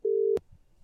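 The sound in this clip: A telephone call tone while ringing someone: one sustained mid-pitched beep that ends in a sharp click, followed by faint low noise.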